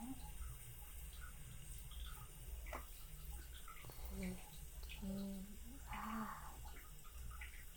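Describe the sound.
Soft splashing and running water as someone is rinsed off in a bath, faint and intermittent beneath quiet speech.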